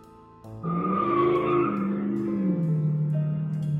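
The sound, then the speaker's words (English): Tires squeal as a car peels out outside: a loud, sustained high squeal kicks in after a short quieter lead-in and holds steady, wavering slightly in pitch, until the end. “Someone annoyingly peeled out on their car.”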